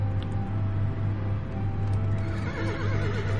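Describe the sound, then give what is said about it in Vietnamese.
Four horses neigh and whinny as they gallop through a forest, with hoofbeats clattering beneath. The sound is continuous and fairly loud from start to finish. “Bốn con tuần mã chạy như bay trong rừng.”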